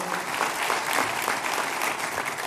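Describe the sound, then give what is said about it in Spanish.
A church audience applauds during a service with dense, steady clapping that continues without a pause. “Le da un aplauso al Señor por eso, ¿no?”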